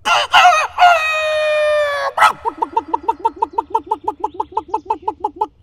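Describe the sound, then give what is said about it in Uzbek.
A rooster crows loudly in one long, harmonic call, then breaks straight into a rapid, even run of many sharp, bright clucks that carry on to the end. “U uyga yaqinlashganida xo'rozi ko'rib, xursand bo'lib qichqirib yuboribdi.”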